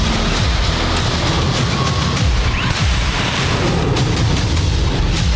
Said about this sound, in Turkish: Uzun menzilli hava savunma sistemi SİPER gerçekleştirilen testte yüksek hızlı hedefi başarıyla imha etti.